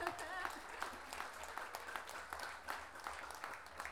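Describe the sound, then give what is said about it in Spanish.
Audience applause at a national improvised-verse tournament in Pirque: a dense, steady patter of many hands clapping throughout, with voices mixed in. “Un aplauso para nosotros que estamos aquí en septiembre.”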